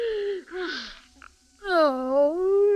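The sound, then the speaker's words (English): Mourners wail in a funeral procession through a bazaar square. Voices give a short moaning cry, pause, and then a long, sustained wail that wavers up and down in pitch. “Wail went the mourners.”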